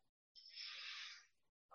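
A single audible breath taken by a pastor during a sermon, a soft airy hiss lasting about a second that rises and fades, set between moments of near silence.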